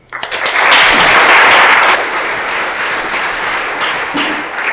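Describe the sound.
Audience applause welcoming Nick, a speaker being introduced at a talk, swells quickly into loud, dense clapping that holds steady for several seconds before easing slightly toward the end.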